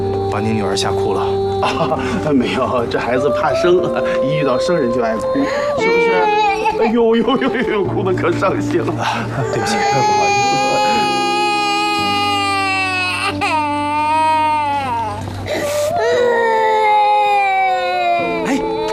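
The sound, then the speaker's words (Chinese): A baby girl, shy of strangers, cries in long, wavering, high-pitched wails that rise and fall, with adult voices talking over and around her throughout. “把您女儿吓哭了，啊，没有，这孩子怕生，一遇到生人就爱哭，是不是？哎呦呦呦呦，哭得可伤心了。”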